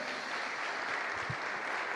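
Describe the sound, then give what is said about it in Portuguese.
Applause from an audience during a church service, a dense, steady wash of clapping hands that holds at an even level throughout without a break. “Você pode aplaudir Jesus?”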